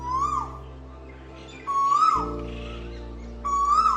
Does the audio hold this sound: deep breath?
no